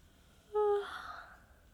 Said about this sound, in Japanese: あ、ごめん、あくび出ちゃった。なんか眠くって。